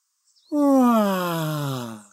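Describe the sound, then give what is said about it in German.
A long, voiced yawn from a sleepy marmot, imitated by a human voice. It starts abruptly, swells, then slides steadily downward in pitch and fades over about a second and a half. “Gähnte das Murmeltier schläfrig und blinzelte in die Sonne.”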